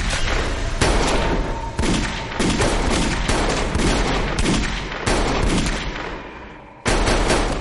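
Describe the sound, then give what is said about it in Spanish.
Heavy gunfire rings out in a shootout from a 2016 action-thriller horror film: dense, near-continuous blasts with sharp fresh bursts every second or so, a brief lull near the end, then another loud volley. “Deja la escopeta y apunta a Roan con la pistola. Joe se interpone y se disparan.”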